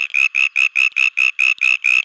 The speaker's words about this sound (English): being higher and squeakier, further away from the traffic noise, and this increases the distance over which it can be heard. Here's the old call, and here's the new one.